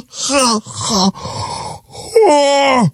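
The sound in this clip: A man groans while stretching: a few drawn-out voiced moans and strained breaths, then a long sustained groan that slides down in pitch.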